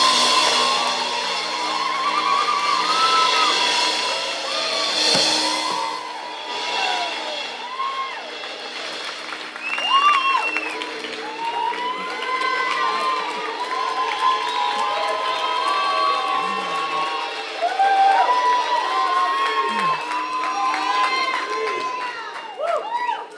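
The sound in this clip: A church audience cheers to welcome a speaker to the platform, with sustained crowd noise, whoops, shouts and scattered clapping that surge and swell over a long stretch while voices call out across it.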